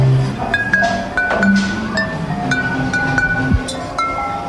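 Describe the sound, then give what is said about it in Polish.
Music played on bottles: bright, ringing clinks of glass sound a series of pitched notes at varied pitches in a loose, irregular tune. “Na czym grasz? Na butelkę. grasz na butelkach.”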